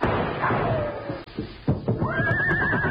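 A horse neighs twice: first a descending whinny, then after a short gap a longer, wavering cry that runs to the end, both loud and clear.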